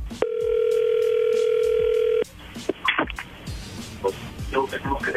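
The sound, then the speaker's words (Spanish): A steady telephone tone hums for about two seconds while a dropped call is redialed, then stops abruptly, followed by a short stretch of talking. “ahí se está marcando de nuevo”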